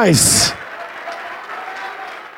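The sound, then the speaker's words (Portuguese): A church audience applauds during an evangelistic service: a brief voice and a bright burst at the start, then steady, moderate clapping to the end. “vem, vem, ô glória, vamos aplaudir mais,”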